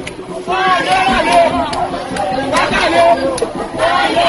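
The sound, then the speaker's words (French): A crowd of thousands marching in protest in Carrefour, Haiti, demanding the prime minister's resignation, a loud, dense mass of shouting and chattering voices that carries on continuously. “Des milliers de personnes défilaient encore pour réclamer la démission du Premier ministre Ariel Henry. Extrait là d'une vidéo mise en ligne sur le site de l'agence Alter Press.”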